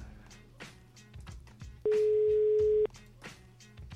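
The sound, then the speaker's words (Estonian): During an outgoing telephone call, one steady ringback tone lasts about a second and is clearly louder than the quiet background noise before and after it. “Kutsub. See on juba hästi.”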